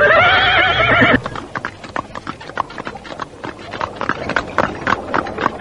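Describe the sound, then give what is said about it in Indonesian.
A horse whinnies loudly, then a horse-drawn carriage sets off with hooves clopping in a steady, brisk rhythm of many sharp hits. “Kusir kereta menyentakkan tali kuda.”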